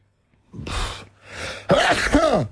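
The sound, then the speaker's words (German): A sneeze: two breathy, noisy bursts followed by a louder voiced explosive burst with a falling tone, heard alone without talk. “Da muss ich niesen.”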